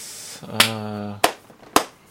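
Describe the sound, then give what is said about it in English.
A lone slow clap from one person: three sharp, spaced hand claps with a voice speaking briefly between the first two. “I started the slow clap. No one joined in.”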